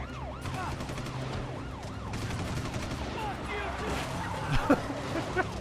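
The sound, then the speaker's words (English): Video game gunfire rings out during a police chase driving scene, with wailing sirens rising and falling throughout and a few sharp shots bursting near the end. “Oh, looks like we're gonna have to shoot behind us. Wow, I got shot in both arms.”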